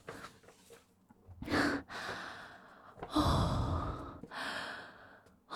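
Deep breathing from one person, several long, loud breaths drawn in and let out with a sighing, airy quality and no talk between them.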